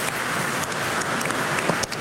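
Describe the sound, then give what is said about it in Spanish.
Applause greets a round of birthday wishes: a dense, steady crackle of many hands holding an even level for about two seconds. “Un aplauso también a los que están en la casa, felicidades.”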